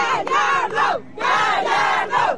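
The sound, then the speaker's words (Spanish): A football player's family cheers for him, loud group voices shouting in two long bursts split by a short pause. “Un aplauso para Gallardo, una porra.”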